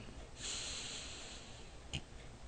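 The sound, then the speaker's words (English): A slow breath drawn in through the nose makes a soft, airy hiss for about a second, followed by a brief, sharper sniff. “We continue to breathe in through our nose”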